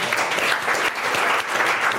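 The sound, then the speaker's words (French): Studio audience applause on a television talk show, a thick, continuous patter of many hands clapping at a steady level for about two seconds, with no speech over it. “Qu'on applaudit, s'il vous plaît.”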